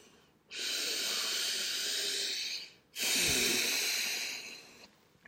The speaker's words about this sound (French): reprendre quelques respirations profondes